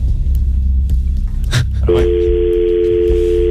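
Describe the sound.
A telephone line during dialling for a call: a brief burst of noise, then a steady, even dial tone over a low rumbling background.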